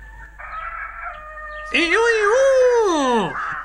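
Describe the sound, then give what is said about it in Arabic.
A rooster crowing in one long, loud, harmonic-rich call that rises and then falls away, preceded by a steady held tone. “وفي هذه الأثناء عاد ديك وبصحبته أرنوب، ولما شاهد بنفسه ما يجري صاح وقال”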